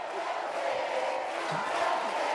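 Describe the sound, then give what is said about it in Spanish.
Stadium crowd roaring and cheering as spectators throw carnations, a dense, steady wash of many voices that holds at an even loudness throughout, with no single voice standing out. “Aquí está el público lanzando claveles como en aquel 1970.”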